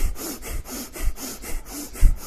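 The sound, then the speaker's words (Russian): Rapid, forceful bhastrika yoga breathing, shallow but powerful, pumps in a fast even rhythm of many sharp breath strokes with no talk over it. “последний цикл у нас сейчас вот будет бхастрика, поверхностная бхастрика, очень сильно, мощно дышим.”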